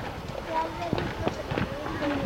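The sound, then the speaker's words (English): Marching feet at a big uniformed parade: a loose run of soft, regular steps on pavement. A few sharper treads stand out, and faint voices are mixed in. “Pick up the marching feet. We'll continue our walk. Well, a big parade out there.”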